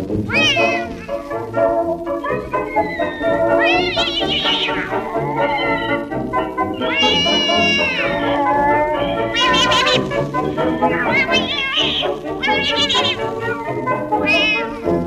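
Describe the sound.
A cat meows over and over in long, loud cries with sliding, wavering pitch, running almost continuously among rich tonal backing in a vintage Spanish-language song about a mouse.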